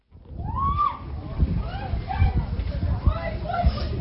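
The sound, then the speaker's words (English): A grieving mother wails for her daughter, one of the schoolgirls who died at a girls' boarding school in central Kenya. Her loud, wavering cries rise and fall repeatedly over a low, rumbling background. “The wailing of a grieving parent. An all-too-familiar cry in Kenya's boarding schools. She's wailing for her daughter, who's among 16 girls who died at Utumishi Girls Academy here in central Kenya.”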